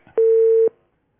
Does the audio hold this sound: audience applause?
no